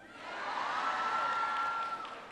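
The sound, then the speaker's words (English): Audience cheering greets a speaker taking the stage at a reception, a steady wash of crowd noise with whoops that swells and holds, then eases slightly at the end. “You're all just cheering because I know Michelle.”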